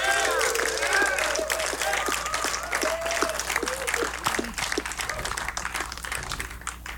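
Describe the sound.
Concert audience applauding a keyboard player: dense clapping mixed with whoops and cheers early on, gradually thinning and growing quieter toward the end.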